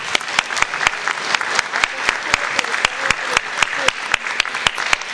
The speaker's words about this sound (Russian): Ребята, давайте еще раз похлопаем.